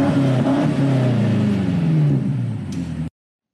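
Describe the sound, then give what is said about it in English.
Engine revving from a BMW M8 Competition: a loud, steady, deep growl that holds for about three seconds, then cuts off abruptly. “Driving out in a brand new M8 BMW M8 competition. Listen to this thing.”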